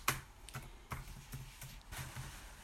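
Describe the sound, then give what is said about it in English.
Typing on a computer keyboard, a sparse run of quiet key clicks at an uneven pace with short pauses between strokes, and no talking over it. “I can type in here for you as well, degeneration.”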